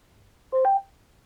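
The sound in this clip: A smart speaker plays a brief electronic connecting tone as a drop-in call starts: a single short beep that steps from a lower pitch to a higher one, alone against near silence.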